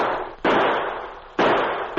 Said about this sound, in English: In the darkness, the sergeant drew his gun and returned the fire.